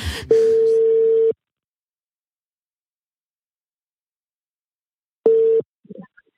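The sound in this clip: Ringback tone plays while a telephone call is being placed. Two long, steady, mid-pitched beeps are separated by a long silence, and the second is cut short before a brief voice follows.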